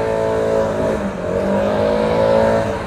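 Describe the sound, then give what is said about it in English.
A gas-powered leaf blower drones steadily, with a loud, buzzing engine tone that wavers slightly in pitch and never stops for the whole short stretch. “I can't stand them gas blowers.”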